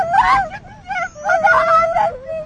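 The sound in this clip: A miner's wife cries aloud, her wailing voice wavering and breaking in two long sobbing bursts with short pauses between them.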